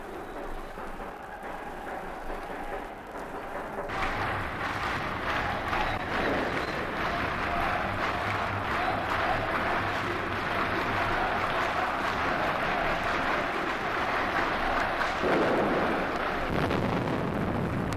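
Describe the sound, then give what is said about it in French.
Offensive grenades explode during street clashes, heard as many heavy rumbling blasts over constant noise that grows louder after the first few seconds and stays loud. “Les grenades offensives explosent.”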